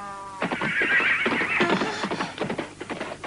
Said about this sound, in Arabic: حصان شرس، حتى أن الكبار يهابون من